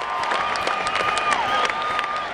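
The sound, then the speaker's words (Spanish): Audience applause mixed with crowd cheering after a victory speech in a staged comic drama scene. The clapping is steady and continuous, with sustained cheering voices above it for the whole clip. “¡Aplauso, por favor!”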